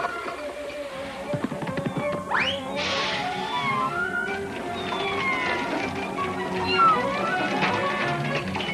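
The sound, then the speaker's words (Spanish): A drowning kitten meows in distress in a 1941 animated cartoon, giving a few high, wavering cries over a busy, cluttered background. “¡Salva al pobre gatito! ¡Ten piedad! ¡Ayuda al pobrecito gato!”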